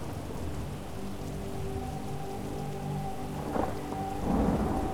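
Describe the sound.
Steady rain with thunder: a dense, continuous hiss of falling rain over a low rumble that swells near the end, with soft sustained tones running underneath.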